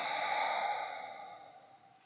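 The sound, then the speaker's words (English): A deep breath let out slowly during a guided breathing exercise: a soft, airy exhale that fades gradually over about two seconds, faint and alone. “I invite you to take another deep breath in with me. Let it out.”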